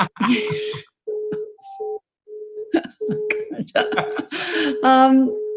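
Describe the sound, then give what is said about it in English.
A mobile phone rings with an electronic melody of short, steady tones separated by brief gaps, breaking off in places and ending in a busier run of tones. “Oh, sorry, my phone's going off there.”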